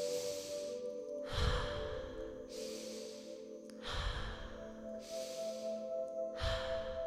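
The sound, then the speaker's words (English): Slow guided breathwork, drawing in through the nose and releasing through the mouth. Soft airy breaths repeat in several unhurried cycles, with fuller breathy exhales, over a steady low drone. “The inhale will be through the nose and the exhale will be through the mouth. It'll be like this.”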